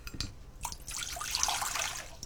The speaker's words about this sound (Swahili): Kisha viweke kwenye sufuria pamoja na maji kikombe kimoja, sawa na mililita 200.